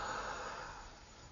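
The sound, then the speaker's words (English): A deep breath is drawn in as a steady, breathy rush of air that eases slightly as it ends. “And then as deep as you can take this breath, right from your root chakra, from your sex center, right up, deep breath.”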